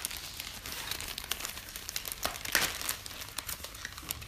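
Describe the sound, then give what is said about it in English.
Paper cards being drawn and handled from a deck make a steady run of soft crinkling and rustling with a few sharper snaps. The sound is fairly quiet throughout and no voices are heard. “So right now, we're going to get out our cards and draw for you what it is we'll be talking about.”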